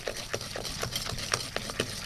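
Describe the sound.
An electric mixer whips soft room-temperature butter, powdered sugar and egg liqueur into a fluffy cream in a bowl. It gives a faint motor hum broken by regular, rhythmic clattering pulses.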